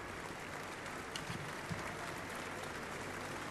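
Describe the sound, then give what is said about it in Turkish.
Faint, steady applause from a concert audience rises into a continuous hiss of clapping as symphony orchestra musicians take their seats before a performance. “Cumhurbaşkanlığı Senfoni Orkestrası sanatçıları yerlerini alıyorlar. Alkışlar Levent duyuluyor dinleyicimiz tarafından.”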